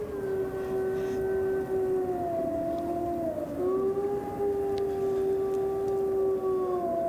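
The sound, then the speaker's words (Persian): A wolf howls in one long, sustained tonal call that fills the whole clip. Its pitch holds mostly steady, with slight wavering and a brief dip near the middle, over a constant noisy background. “صدای گرگه.”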